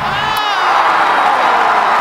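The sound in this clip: Loud crowd cheering and whooping after the Conservative Party of Canada leadership result is announced. A continuous roar of voices carries shouts and whoops throughout.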